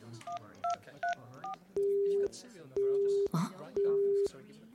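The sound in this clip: A telephone call fails to connect. Four short touch-tone dialing beeps come first, then three long, steady, evenly spaced busy-signal tones.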